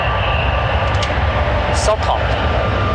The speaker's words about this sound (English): Accelerating hard, the plane reaches 130 knots